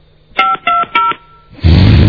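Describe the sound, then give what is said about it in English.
Three short touch-tone beeps from a telephone being dialed, evenly spaced and steady in pitch, followed by a loud, sustained rush of static-like noise. “Come on, JFK Radio. Pick up your goddamn phone.”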